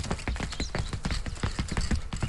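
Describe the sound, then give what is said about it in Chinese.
Quick, small running footsteps in a palace corridor outside a hall: many light, rapid steps patter in a steady, brisk rhythm at an even level, with no voices. “突然听到殿外的甬道上有太监碎步奔跑的声音。”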